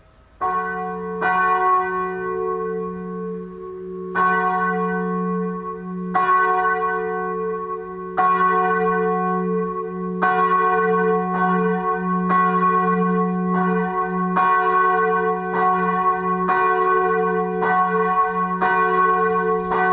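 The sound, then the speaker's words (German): A newly installed church bell rings alone, with many loud, evenly spaced strikes, each a bright metallic clang whose deep hum sustains between strokes. “Hören wir jetzt die neue Floriansglocke.”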